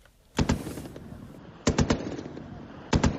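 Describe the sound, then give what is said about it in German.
Three short, loud bursts of automatic gunfire as fighters test-fire their weapons in the desert near Bani Walid, each burst a quick cluster of sharp cracks separated by quieter pauses. “Sie testen ihre Geschütze, laden Munition auf ihre Pickups, rüsten sich für den Kampf aufs Neue.”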